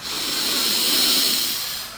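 One long, slow, deep breath in, taken as a guided calming exercise: a steady, airy hiss that swells slightly and holds for about two seconds, alone and moderately loud.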